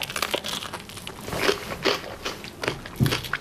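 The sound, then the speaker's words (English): Crisp, crunchy bites and chewing of homemade food, a handful of short crackling bursts spread unevenly across the moment, with no talking. “Let's try it. Let's take a bite.”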